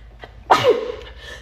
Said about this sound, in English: I sneezed there.